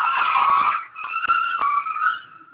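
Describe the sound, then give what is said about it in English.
Car tyres squeal in a loud, high-pitched skid after the car lost its brakes, a sustained screech in two stretches split by a brief dip, with a few thumps beneath. “Think somebody just lost their brakes. Oh man, that was crazy. They didn't crash, did they?”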